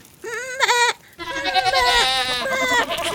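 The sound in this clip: Goats bleat in a pen with wavering, quavering calls: one bleat first, then after a short pause a continuous chorus of several overlapping goat voices, loud and sustained.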